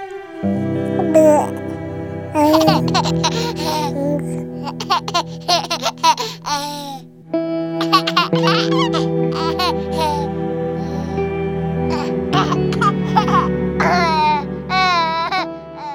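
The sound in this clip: A baby babbles and laughs in high, lively vocal bursts with quick pitch sweeps. The sounds go on almost continuously, with one short pause partway through.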